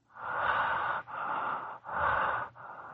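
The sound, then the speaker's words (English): Rapid breathing through the mouth during a doctor's examination: four long, rushing breaths follow one another with only brief gaps, loud and breathy, with no talk. “Breathe through your mouth. More rapidly.”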